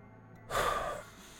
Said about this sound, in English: Agent Romero takes a deep breath